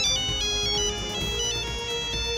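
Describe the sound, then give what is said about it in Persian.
A luxury mobile phone rings with a bright electronic melody, a looping tonal pattern that stays loud and steady with no talk over it. “گوشی لاکچری منم زنگ خورد، منم برم به کارام برسم.”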